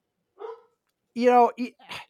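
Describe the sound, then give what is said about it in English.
A dog barks a few short, sharp times against near silence. The first bark is faint and the second is the longest and loudest. “Dog.”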